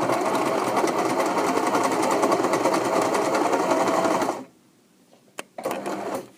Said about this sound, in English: That mystery sound was the sound of my sewing machine.